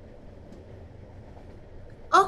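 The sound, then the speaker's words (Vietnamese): Low, steady rumble of a train ride nearing its arrival, even and fairly quiet throughout, ending with a short, louder tonal burst. “Hình như là chúng ta đã về đến nhà rồi này. Hôm nay cảm giác chuyến tàu đi nhanh hơn”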